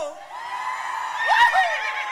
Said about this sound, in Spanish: A ver, y si hacemos el grito todos juntos a la cuenta de 1, 2 y 3. ¡El grito!